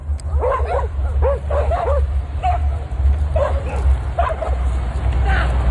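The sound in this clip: Several dogs bark, yip and whine while chasing a man after two women walking them let go of the leads. The short barks come in a few excited clusters over a loud, rumbling background, with human voices mixed in.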